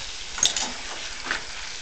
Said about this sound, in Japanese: これを炒めます。